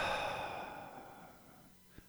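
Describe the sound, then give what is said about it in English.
A slow, deep exhale during a breathing exercise, a soft breathy rush that starts fairly loud and gradually fades to near silence, ending with a faint click. “Inhale. Hold it. And exhale.”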